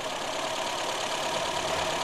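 A vehicle engine idles steadily after a repair, left running without any revving. The low rumble stays even and continuous the whole time, with a faint steady tone riding on top and no voices.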